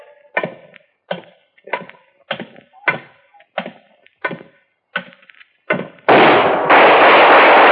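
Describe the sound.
Gunfire in a radio drama: a run of many sharp, loud bangs at a steady pace, followed by a sustained roar of noise.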